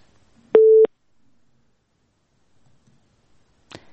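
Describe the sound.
Phone line tone after a caller's call is cut off: a single steady low beep lasting about a third of a second, followed by near silence and a faint click at the end.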